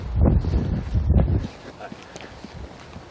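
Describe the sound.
Cold wind buffets the microphone on a walk outdoors. Heavy, rumbling gusts come first, then they ease into a fainter, steady breathy rush.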